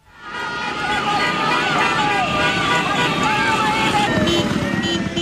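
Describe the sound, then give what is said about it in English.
A dense, continuous roar from dozens of motorbikes and cars carrying flag-waving demonstrators at a protest in Venezuela, mixed with crowd hubbub, wavering tonal sounds and people talking over it. “that's the sound of dozens of motorbikes and cars full of demonstrators waving giant flags and banners in support of Ms.”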